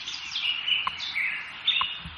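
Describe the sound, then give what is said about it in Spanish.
Small birds chirp at dawn in Madrid, a continuous layer of thin, high twittering and short tweets, fairly faint and steady throughout, with no voices. “Pues ya están por aquí los pajaritos de Radio Hora que nos indican que amanece oficialmente en Madrid en estos momentos.”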